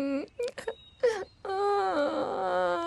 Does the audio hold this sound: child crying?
yes

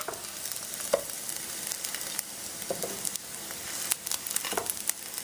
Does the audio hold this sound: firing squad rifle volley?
no

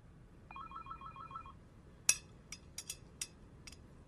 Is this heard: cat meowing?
no

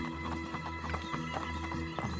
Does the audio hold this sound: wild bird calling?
no

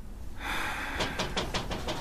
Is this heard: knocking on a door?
yes

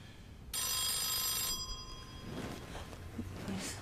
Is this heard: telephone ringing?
yes

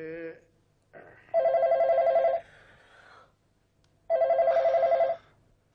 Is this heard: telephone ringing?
yes

